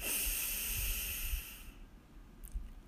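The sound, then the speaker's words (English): A deep breath drawn in during a guided breathing exercise: a long, airy, hissing inhalation lasting under two seconds, then near silence. “So deep breath in”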